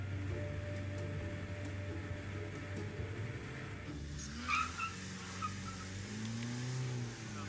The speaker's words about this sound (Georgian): მადლობა ღმერთს, რომ ასეთი მანქანა მყავს. სხვა ტრანსპორტით აქ ვერ ამოვიდოდი.